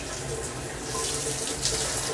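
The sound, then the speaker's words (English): Water running from a shower that has just been turned on and is still cold, a continuous broad hiss that stays steady without breaks. “come join me in the shower. I'm just getting in right now.”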